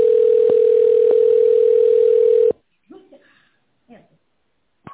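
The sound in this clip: Steady telephone line tone while a call to a company is transferred to a secretary. The continuous, loud beep lasts about two and a half seconds with faint clicks, then cuts off abruptly, followed by brief, quiet fragments of speech.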